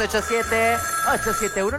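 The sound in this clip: Studio call-in telephone ringing: a steady electronic ring tone with warbling tonal patterns, heard together with a voice.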